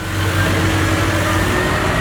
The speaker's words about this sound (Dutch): Dat is er een vrachtwagen op weg naar een supermarkt in Nederland of België om te bevoorraden.